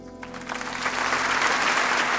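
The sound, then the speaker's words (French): Applause from an audience greeting a guest on a French radio philosophy programme, swelling over the first second into a dense, steady wash of clapping that holds to the end, with a faint low tone underneath. “C'est sous les applaudissements que nous vous donnons la parole ce matin.”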